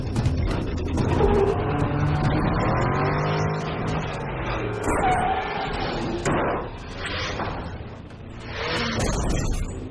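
A car engine accelerates hard, producing a loud, continuous roar with revving tones that sweep upward, and a few sharper bursts near the end.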